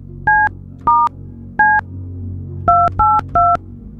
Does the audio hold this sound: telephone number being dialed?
yes